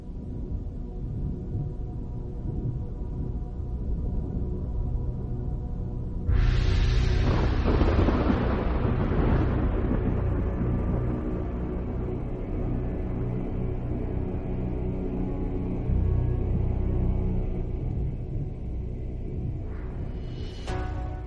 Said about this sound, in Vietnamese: gió bão nổi đùng đùng